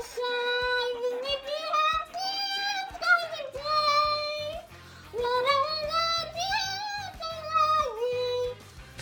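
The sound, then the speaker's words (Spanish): A girl hums a song with her mouth closed, in smooth, sustained notes grouped into phrases. The pitch rises and falls gently at a steady, moderate volume. “Es una niña. Que canta con la boca cerrada. Es una niña que... si todo va bien, tenéis que estar escuchando de fondo a esta niña que canta. Vamos a escucharla.”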